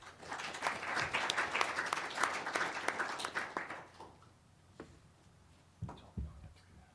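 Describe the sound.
Audience applause welcomes a speaker at a talk on gaming regulation, a dense burst of clapping lasting about four seconds before thinning out, followed by a couple of faint thumps.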